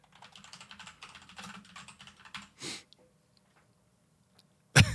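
Rapid keystrokes on a computer keyboard as a name is typed, a dense run of light clicks for about two and a half seconds, then a few scattered knocks and one loud burst at the end, with no talk.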